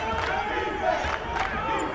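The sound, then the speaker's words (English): A college basketball bench for Chicago State chants defense and claps from the far side of the court during a game, a rhythmic group shout blended with crowd noise and scattered voices. “Now the Chicago State bench over on the far side of the court is chanting defense and clapping”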